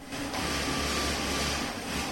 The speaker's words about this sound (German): Nähmaschinen, Dampf aus Bügeleisen, Schnittmuster an Kleiderstangen. So sieht's aus in der vierten Etage eines Berliner Hinterhofs in Kreuzberg.